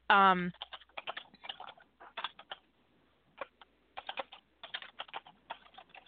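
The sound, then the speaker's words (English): Fast typing on a computer keyboard: many crisp key clicks in uneven bursts separated by short pauses, after a brief tonal sound at the very start. “It's very distracting to watch her listen to her type.”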